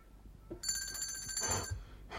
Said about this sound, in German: Kein Mensch hört mich. Klingeln ist wohl nicht laut genug.